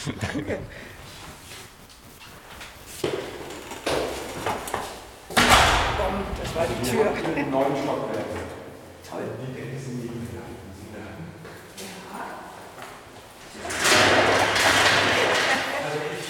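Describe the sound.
An archive storage room door shut with a single heavy thud, set among ongoing conversation and a few lighter knocks and handling noises.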